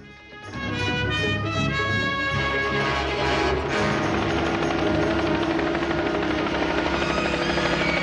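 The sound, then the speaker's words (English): Helicopter arcing past a sheer cliff: a loud rotor drone swells in within the first half-second and holds steady, blended with sustained musical tones. “He stops and whips his head round, spotting the chopper as it arcs past the cliff.”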